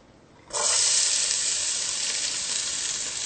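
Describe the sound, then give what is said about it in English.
Onions added to a hot pan burst into a loud, bright sizzle after half a second of near quiet. The hiss stays strong and steady to the end. “So the first thing we're going to do is we're going to add our onions.”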